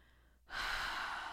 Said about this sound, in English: I want you to take a few deep breaths into your belly.